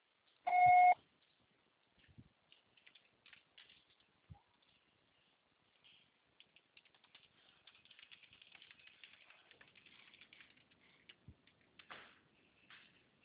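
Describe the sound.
A single short, clear beep marks the start of recording on a mobile network's voicemail, followed by near silence with faint scattered clicks and rustles.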